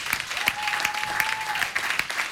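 Audience applause welcoming a band onto the stage: a steady bed of many clapping hands, with sharper individual claps standing out at irregular moments throughout.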